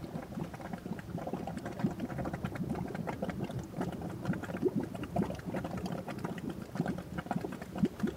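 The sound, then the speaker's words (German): Mud bubbling and boiling in the Solfatara volcanic crater near Naples, a quiet, steady stream of soft, low pops and gurgles at an even level throughout. “In der Solfatara steigen auf dem umgekehrten Wege die Geräusche der Stadt aus dem brudelnden Schlamm.”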